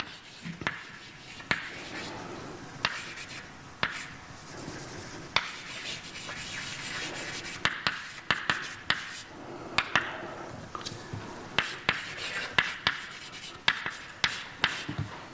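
Writing on a board during a mathematics lecture: many sharp taps and scratchy strokes come in an irregular rhythm, with short pauses between bursts and no talk.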